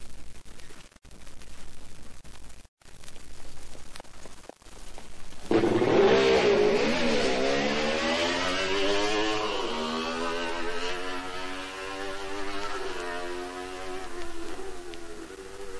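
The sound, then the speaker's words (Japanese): Buzzy, high-revving engine of a Honda CR93 motorcycle on a race circuit, exiting the first corner toward a hairpin. It bursts in after a few seconds of quieter noise and then climbs in pitch in repeated steps as it accelerates. “第1コーナーを抜けた CR93 は左から右へ 27R のヘアピンに向かいます。”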